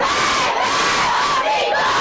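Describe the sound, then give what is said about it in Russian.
A large crowd of protesters shouts outside the Danish embassy in Tehran, a loud, sustained roar of many voices yelling together without a break. “В понедельник огромная толпа снова собралась у посольства Дании в Тегеране.”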